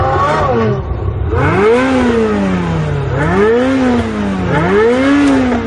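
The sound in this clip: A Ferrari sports car engine revs repeatedly, its loud tone climbing and dropping in about three strong surges with no pause between them.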